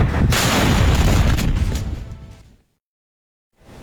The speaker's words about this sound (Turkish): Bolivya Savunma Bakanı ilk patlamaya olay yerinde depolanan piroteknik malzemelerden çıkan barutun neden olduğunu açıkladı.